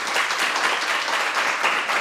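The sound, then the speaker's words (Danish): Audience applause welcoming a guest, a dense, even wash of clapping that holds steady from start to finish with no voices over it. “Og giv lige Helle en hånd også.”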